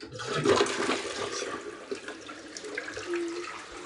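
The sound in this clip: A toilet flushed, a rush of gushing, gurgling water that starts strongly and then runs on steadily, easing off slightly toward the end, with no voices.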